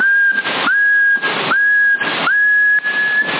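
A person whistles into a CB radio microphone: a steady, high, sustained whistle. It breaks off three times, and bursts of loud radio hiss fill the gaps.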